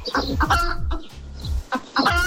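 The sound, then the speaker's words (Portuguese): A chicken clucks in a quick, uneven series of short, throaty calls, fairly loud and alone, with brief pauses between bursts. “Que isso? Uma galinha.”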